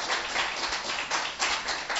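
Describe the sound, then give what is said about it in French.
A church audience clapping in praise during a service, a dense, continuous patter of many hands with a loose rhythmic pulse. “Alléluia. On applaudit pour Jésus.”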